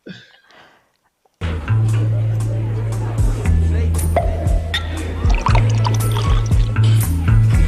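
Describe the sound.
A radio jingle honouring the national team bursts in abruptly after a short, quiet opening, then runs loud and dense with sustained low tones to the end.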